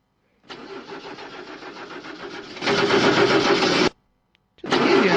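Car engine cranking on its starter motor, an older distributor-ignition petrol car whose Bendix starter drive needs replacing: a long rough, whirring grind grows louder partway through, cuts off abruptly, then a second cranking attempt begins after a short pause.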